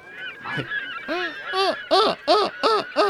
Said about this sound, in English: there's a couple of birds chirping, some seagulls that you hear, because it's still kind of near the edge of near the sea.